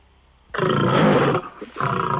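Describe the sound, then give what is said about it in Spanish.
A voice imitates a lion roaring: a loud, throaty roar lasting about a second, then a shorter second roar after a brief pause. “Así. Así, mire, así hacen los leones.”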